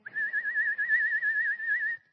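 A person whistles one sustained, high note for nearly two seconds, with a quick wavering vibrato and nothing else around it.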